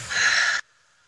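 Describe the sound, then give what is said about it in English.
A single big, breathy exhale after a deep breath, loud and steady for about half a second before cutting off abruptly into near silence. “take a deep breath first. Big exhale.”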